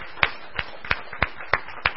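A church audience claps to welcome the leaders of a new fellowship: six sharp, evenly spaced claps, about three per second, in a steady unison rhythm.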